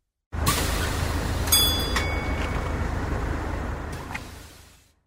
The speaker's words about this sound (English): Bus.